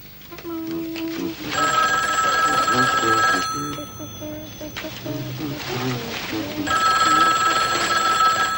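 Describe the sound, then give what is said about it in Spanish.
A telephone rings at home while Christmas decorations are being made, sounding in two long bursts of steady, bright ringing separated by a gap, with voices underneath. “Papá, teléfono.”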